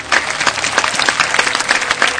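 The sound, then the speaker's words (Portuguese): Applause from an audience: a dense, loud patter of many hands clapping at once, holding steady across the whole short stretch. “Antes do duelo, palmas para Jurandir.”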